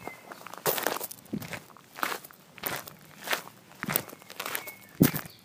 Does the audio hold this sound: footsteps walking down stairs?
yes